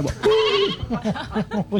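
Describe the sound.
A human voice imitates a sheep bleating: one long, wavering bleat followed by several short, quavering bleats in quick succession, fairly loud and alone.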